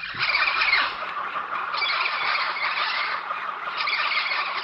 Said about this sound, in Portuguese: Este é o canto da liberdade de 7 papagaios do peito roxo que foram devolvidos à natureza.